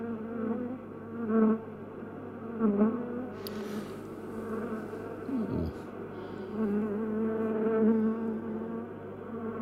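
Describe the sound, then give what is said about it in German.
Bees buzz inside a beehive, a steady droning hum that swells and eases slightly in loudness throughout, with no voices. “Fünftens, der Bienenkorb.”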